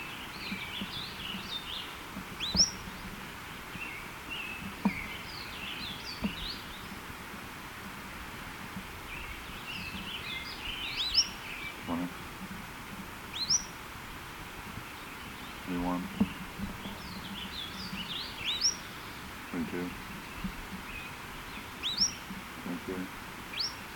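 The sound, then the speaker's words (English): A bird sings a two-note call, high thin chirps repeated several times at intervals over soft background noise, with a voice speaking now and then. “both notes are by this bird”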